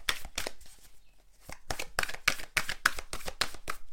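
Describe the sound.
Oracle cards being shuffled and drawn from a deck, many quick papery snaps and riffling bursts in an uneven rhythm, with a brief pause near the start before the shuffling resumes.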